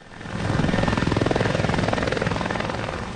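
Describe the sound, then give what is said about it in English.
Helicopters fly over a wildfire in Almeria province, southern Spain, ferrying firefighters. Their rotors make a loud, steady, rapid chopping throb with fast rhythmic pulses that hold throughout. “helicopters buzz through the air, transporting firefighters who've contained a blaze burning in Almeria province.”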